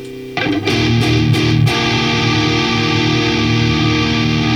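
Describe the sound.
An electric guitar played through an Axolotl effects pedal, heavily distorted; a few strummed attacks in the first seconds give way to a loud, sustained ringing chord.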